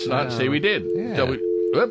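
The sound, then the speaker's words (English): Telephone line tone as a call is picked up, a steady electronic hum holding throughout beneath talking voices. “So let's take a phone call here.”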